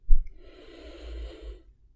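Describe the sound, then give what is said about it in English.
A single slow, deep inhale taken during a guided breathing exercise. It begins as a soft airy rush, holds for about one and a half seconds, then fades to silence, with no talk. “One more time. Inhale.”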